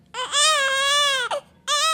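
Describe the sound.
Newborn baby crying in a hospital ward, an infant born with withdrawal symptoms to a drug-dependent mother. A long, high-pitched wail breaks off briefly, then a second cry begins, with no adult voices.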